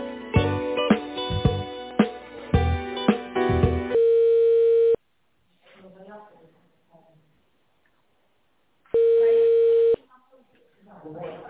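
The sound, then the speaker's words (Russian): Telephone line tones as a business call is put on hold and transferred: two long, steady, thin beeps with a pause between them, after several seconds of busier, narrow-band phone audio. “Минуту, пожалуйста, оставайтесь на линии, я вас соединяю.”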